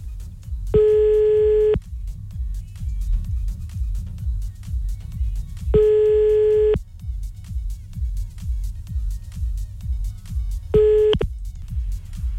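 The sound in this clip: Telephone busy tone after a call is cut off: three steady, mid-pitched electronic beeps separated by long gaps over a constant low rumble, the last beep shorter than the first two.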